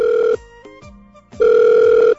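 Telephone ringing on an outgoing call as the caller waits for an answer: two bursts of steady two-tone ring, the first cut off at the start, separated by a gap of about a second.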